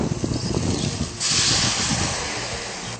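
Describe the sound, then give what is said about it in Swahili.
A little water is added to vegetables cooking in a pot for soup, giving a steady sizzling hiss. Midway it swells into a louder, broad rush that fades only slightly toward the end. “Sasa tutaongeza maji kidogo kwa sababu ya supu.”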